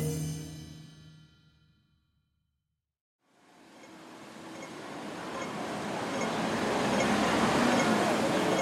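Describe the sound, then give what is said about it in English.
Hong Kong city ambience with a subway whoosh: after a brief silence, a broad rushing wash of noise swells up and keeps building steadily louder to the end. “This is the sound of Hong Kong on a normal week. There's the hustle and bustle of the city's markets where customers barter. The whoosh of the subway, people rushing to and from work.”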